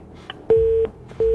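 A busy tone after a phone call cuts off: a steady mid-pitched beep, a short pause, then the beep again, over a low hum of line noise.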